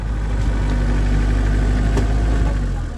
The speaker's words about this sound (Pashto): زه همدا اوس په یو کوم ګیر لرونکي موټر کې د یادې لارې په اوږدو کې هغه سیمې ته ورځم